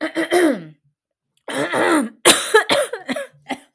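Harsh coughing and throat clearing after choking on one's own saliva, several loud, raspy bursts separated by short pauses, with no other sound.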